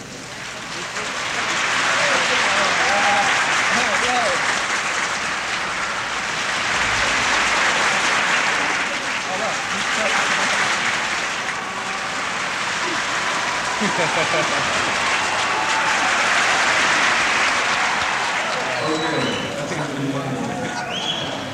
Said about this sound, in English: you stop clapping and you start, and you can move the applause all the way around the room, thereby creating noise.